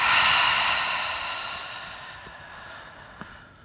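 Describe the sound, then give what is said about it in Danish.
A deep breath through the nose followed by a full exhale, heard as one long airy rush that starts loud and slowly fades over a few seconds. It sounds alone, with a tiny tick near the end. “Og tag så en dyb indånding gennem næsen. Og en fuld udånding.”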